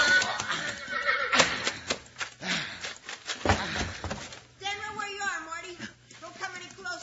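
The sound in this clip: A horse gallops, its hooves clip-clopping, while a man urges it on. Midway through comes a loud, wavering neigh, and voices are heard over the hoofbeats.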